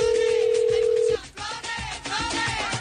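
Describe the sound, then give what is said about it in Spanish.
A telephone call's dialing tone holds as a single steady, loud, low-mid tone for about a second, then cuts off into dense, noisy sound. “Tenemos una llamada, esperamos sorprenderte.”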